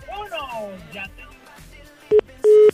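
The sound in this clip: Telephone busy tone after a caller hung up, heard as two loud, steady electronic beeps, the second longer than the first, following a stretch of a voice talking.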